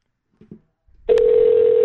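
A steady, unbroken telephone line tone sounds on a call to a Denny's restaurant. A couple of faint clicks come just before the tone, and no voices are heard.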